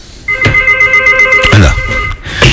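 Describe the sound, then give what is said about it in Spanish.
Telephone ringing as a call comes into a radio show: a loud, steady electronic ring with a buzzing harmonic tone, broken by a few sharp clicks and knocks, then cut off before the end. “parece que tenemos una llamada”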